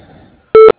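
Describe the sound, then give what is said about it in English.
A voicemail beep: one short, steady electronic tone with bright harmonics, loud and alone after a faint low hum. “Leave a message at the beep.”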